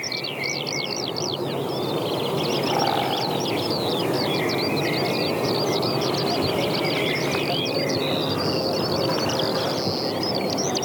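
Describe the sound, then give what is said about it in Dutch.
A common cuckoo calls in a forest at dawn amid a thick chorus of songbirds. High chirps and twitters run continuously over a steady low background hiss. “Koekoek.”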